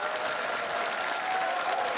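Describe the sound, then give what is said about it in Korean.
Audience applause welcomes a child pansori performer at a traditional Korean music showcase: a dense, steady wash of clapping that holds at an even level for the whole two seconds, with no talk over it. “여러분의 큰 박수로 모셔보도록 하겠습니다.”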